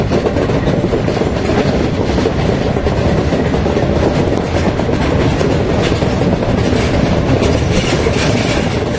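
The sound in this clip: Noise inside the cab of a running locomotive entering Halberstadt: a loud, unbroken roar and rumble with steady rhythmic wheel clatter beneath it, and no pause throughout.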